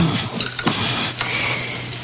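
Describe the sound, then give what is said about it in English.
Digitalis leaves ground in a mortar with a pestle, giving a continuous rough, gritty scraping with a couple of sharper strokes along the way. “Now I place these leaves into the mortar and grind them up.”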